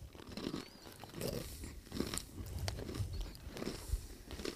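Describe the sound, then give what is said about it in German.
Crunching and chewing of honey-coated salted nuts: irregular, crisp crunches and moist chewing sounds follow one another at a moderate level with no talking. “Das ist unfassbar, das Zeug. Wer kommt auf die Idee, Nüsse mit Honig zu überziehen und dann Salz drüber zu schütten?”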